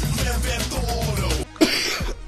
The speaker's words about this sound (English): That was a cough, but I had my hand over my mouth, so that is professionalism for you. I pulled back from the mic, hand over the mouth, coughed.